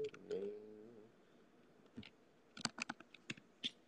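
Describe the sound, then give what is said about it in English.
Typing on a computer keyboard follows a short spoken phrase: a few sparse, crisp key taps in an irregular rhythm, faint overall. “Let me type it in.”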